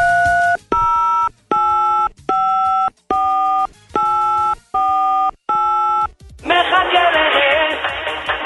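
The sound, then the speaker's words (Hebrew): Telephone dialing tones sound as a call is placed from the White House: eight short, evenly spaced beeps at shifting pitches, followed by a burst of crackly, noisy line sound. “אז אחד מצוות הבית הלבן מחייג לאחד מהמקובלים הללו. בואו נשמע.”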